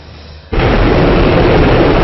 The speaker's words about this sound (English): The Agni 5 missile blasted through the clouds from an island off India's east coast early Thursday, heading skyward on what India called a successful first flight.